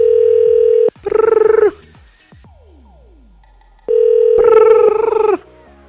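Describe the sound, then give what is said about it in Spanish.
A steady telephone dial tone for a call to a contest caller breaks into a buzzing multi-tone burst, then faint sweeping tones; the dial tone returns and again gives way to a second buzzing burst, with no voices. “Ok, ahora sí, vámonos con la llamada.”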